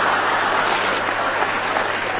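Audience applause at a comedy panel game: dense, steady clapping that fills the whole stretch at an even level, without a clear peak or fade.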